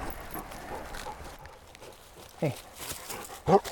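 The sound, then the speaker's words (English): A dog barking on a birthday hike to a waterfall: two short, sharp barks near the end, over steady background noise, with a person talking. “Or are you gonna bark again?”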